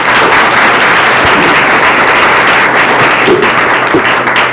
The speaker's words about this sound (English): Give her another big hand.